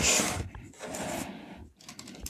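Fast typing on an old computer keyboard, played with nearly all ten fingers. Faint, dense clattering keystrokes run in bursts, with a brief pause before the tapping resumes.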